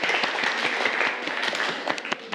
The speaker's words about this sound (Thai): ปรบมือให้เพื่อนกลุ่ม3ด้วยครับ